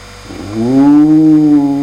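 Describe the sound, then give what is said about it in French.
A single long, low wolf-style howl slides upward in pitch and then holds a steady, fairly loud tone to the end, with no speech. “Les loups hurlaient.”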